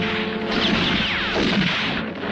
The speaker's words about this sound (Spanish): Sí, disparan como condenados, pero ya se les acabarán las municiones.